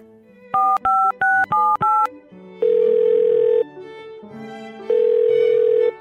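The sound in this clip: A telephone number being dialed: five quick, evenly spaced keypad beeps, followed by two longer steady tones with a gap between them, loud and free of voices.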